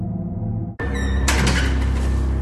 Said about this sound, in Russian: Дверь распахнулась, и в проходе возникла фигура.